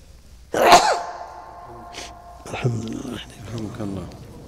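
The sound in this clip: A single sharp sneeze bursts out during an Arabic lecture, followed by a man speaking calmly.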